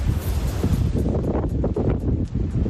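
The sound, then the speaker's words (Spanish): Strong storm wind blows outdoors through a city promenade in Santiago, Galicia. It makes a continuous, dense roar with gusts that buffet the microphone, rising and falling slightly in loudness throughout, with no voices. “Y Pedro está dejando de nuevo tiempo muy revuelto con avisos, por ejemplo, por viento.”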